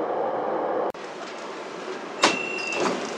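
Beijing subway train arriving at Caoqiao transfer station, where passengers change for the Daxing Airport Express: a steady low rumble inside the car, then a sharp clunk and hiss followed by a sustained high electronic tone.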